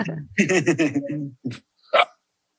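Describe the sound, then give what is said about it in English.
A dog barks in a few short, sharp, bright bursts, moderately loud, with brief pauses between them. “And I knew the dog was going to bark.”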